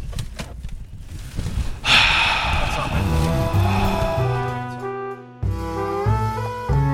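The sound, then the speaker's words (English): Loud highway traffic roars through an open car window as a constant wash of road and wind noise, with a sharper whooshing swell about two seconds in. “I rolled down my window. Yeah, I'm putting everything back up. The fucking highway is deafening.”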